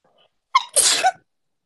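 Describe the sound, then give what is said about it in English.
A single sneeze, alone: a brief sharp intake of breath followed by a loud, breathy burst that cuts off quickly into silence. “Oh no, I feel like I'm gonna sneeze.”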